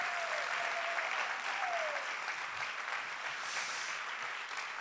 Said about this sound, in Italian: Sono appena sposati da un mese, facciamo un applauso anche a loro.